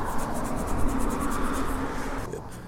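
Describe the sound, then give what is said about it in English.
A sticker is peeled off, making a steady, scratchy rasp with quick repeated ticks as the adhesive lets go. It thins out briefly near the end. “Got the sticker about half removed here.”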